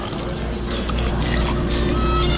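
Soda pouring into a container in a steady, fizzing stream of liquid that stays fairly loud and even for the whole couple of seconds.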